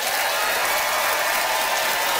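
An audience at a live debate in Victoria applauds to cast a vote for a contestant. The clapping is a dense, sustained wash of many hands at a steady level throughout.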